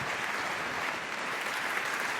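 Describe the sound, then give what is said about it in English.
Applause from an audience welcoming two theoretical biologists to the stage for a talk on biological evolution: dense, steady clapping at an even level throughout, with no voices over it. “Please give a very warm applause.”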